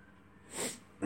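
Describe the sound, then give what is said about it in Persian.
A single sneeze, a short breathy burst of noise that rises and falls quickly. It is faint and heard alone against a quiet background. “ایوه ببخشید، این میخواست عدسه بیاد، من آره نیمت الان دماغم میخواه”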